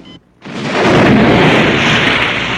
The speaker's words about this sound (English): The helicopter fires missiles into the water. The men paddle on. A gloved hand on a joystick. The paddling men are blown to pieces.